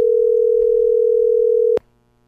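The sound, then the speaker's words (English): A telephone dial tone sounds while someone calls back. It holds as one loud, steady, single-pitched tone for under two seconds, then cuts off abruptly with a click into near silence. “Okay, let me try and call him again. I'm going to see if this is going to work.”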